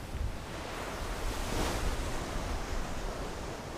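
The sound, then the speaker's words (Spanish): Wind freshening at sea aboard a fishing boat makes a steady, broad rushing noise like surf and wind against the microphone, even in level throughout with no voices. “El viento está refrescando.”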